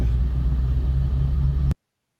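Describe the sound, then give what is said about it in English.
A car's engine rumbles steadily as it is driven, a constant low drone that holds an even level and then cuts off abruptly. “I'm driving this car I bought from you.”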